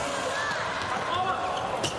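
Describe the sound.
A volleyball is served during a match, with a couple of dull ball impacts nearly buried in loud, steady crowd noise.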